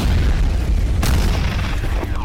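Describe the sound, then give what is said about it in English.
A dynamite explosion booms as a loud, deep, rumbling roar that fills the whole stretch, with a sharp, bright crack bursting through partway in before the roar carries on. “Boom goes the dynamite.”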